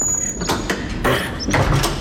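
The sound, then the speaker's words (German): A door being closed, heard as a few dull knocks and rustling scrapes over steady background noise, with no talk. “Und schließen Sie bitte die Tür.”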